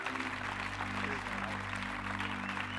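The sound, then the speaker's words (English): Applause from an audience welcoming a youth ministry presenter to the stage: steady, moderately faint clapping throughout, over a low sustained musical drone. “why don't we put our hands together, give him a warm welcome as he comes”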